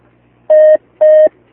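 Telephone tones sound as a call connects on a phone-in line: two short, steady, mid-pitched beeps of equal pitch and length, separated by a brief pause, with near silence around them.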